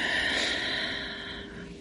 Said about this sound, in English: Deep breath in.